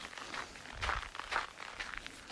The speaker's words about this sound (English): Mostly what's underfoot is maybe a little granular snow and sand mixed.